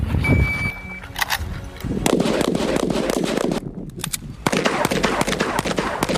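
Rapid gunfire from rifle shooting training by a special forces unit: many sharp, loud reports in quick succession, overlapping into a dense, continuous crackle.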